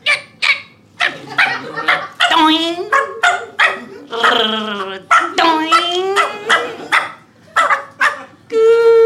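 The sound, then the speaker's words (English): Sharp yips and barks of a young fox bouncing on a trampoline, many short high-pitched calls in quick bursts with some drawn-out whining cries, mixed with excited human voices. “That was a young fox on a trampoline being caught by”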